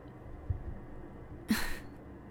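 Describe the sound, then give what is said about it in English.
A faint, breathy groan from someone in the back seat of a car swells up once, preceded by a couple of soft thumps against a quiet engine hum. “What's all that groaning about back there? Come on. You seriously can't wait, what, like 10 minutes until we get there?”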